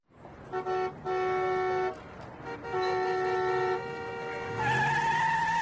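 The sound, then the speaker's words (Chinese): Car horns honk in traffic as a driver cuts in: a few separate blasts, the last held long, then a rising tire-squeal screech like skidding at the end. “哎，你怎么开车的呀？你怎么还加塞呢？”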